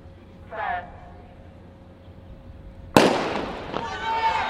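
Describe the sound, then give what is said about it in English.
A starting gun fires for the final event of a track meet, a women's 4x4 relay. Quiet, low background comes first, then one sharp, loud crack breaks in, followed by a sustained wash of crowd noise and voices. “The usually robust Hayward fans were silent before the starting gun blasted for the final event, the women's 4x4 relay”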